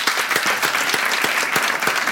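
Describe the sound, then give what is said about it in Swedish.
Dense, steady applause from a live audience, answering a prompt for the single people in the room to clap; many hands clap continuously at an even level throughout, with no voices over it. “Okej, applådera alla ni som är singlar.”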